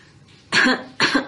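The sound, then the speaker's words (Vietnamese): A person clears their throat in two short, rasping bursts separated by a brief pause, both fairly loud and alone without talk. “Kim Kiền hắng giọng”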